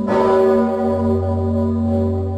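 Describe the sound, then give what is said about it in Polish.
A large church bell, rung for a grand national celebration, sounds with one deep, heavy strike that swells into a long, sustained, humming resonance, loud and alone with no voices. “Ten dzwon hula w górę jak na festynie.”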